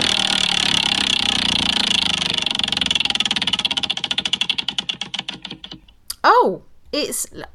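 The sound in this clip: A prize wheel spun and left to slow: rapid, dense ticking gradually spreads into separate clicks that come further apart until the wheel stops, and voices then break in loudly.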